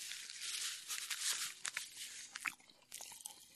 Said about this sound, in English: you're going to get like some Pop Rock ASMR. I don't know if that's going to get picked up or not. I hope it does, because it's going wild.